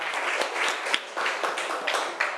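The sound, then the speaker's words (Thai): Applause for the group 5 representative: a small group clapping in an uneven patter of distinct claps, fairly soft, over a couple of seconds. “เอ้าปรบมือให้ตัวแทนจากกลุ่มที่5ค่ะ”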